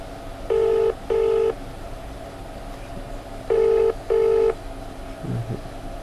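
Ringback tone of an outgoing phone call ringing on the line: two double-burst rings, each a pair of short, even electronic tones, separated by a pause, with a faint low sound just afterward.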